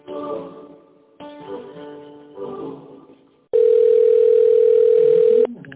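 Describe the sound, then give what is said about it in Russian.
While a phone call is being transferred, a muffled tonal passage on the line gives way to a loud, steady, single-pitch tone that holds unbroken for about two seconds before cutting off. “Сейчас я попробую перевести вас.”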